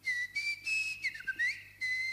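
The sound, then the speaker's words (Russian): A long, drawn-out human whistle holds a clear high tone. It wavers and dips in pitch and breaks into a few sustained stretches with short gaps between them. “И спустил протяженный свист.”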